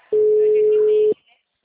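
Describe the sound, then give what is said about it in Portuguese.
Telephone tone after a dropped call: a single steady mid-pitched tone that sounds alone and loud for about a second, then cuts off abruptly into near silence. “caiu a ligação”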